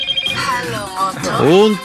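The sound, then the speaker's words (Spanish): A telephone rings with a melodic electronic ringtone for an incoming call. Its bright tonal notes bend and sweep in pitch over a couple of seconds. “Eso es por esta llamada que va entrando.”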